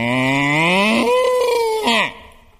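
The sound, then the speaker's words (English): A long cow moo from a farm-animal children's song, loud and alone, rises steadily in pitch, shifts into a higher held tone, then drops off sharply before fading out. “My old cow went.”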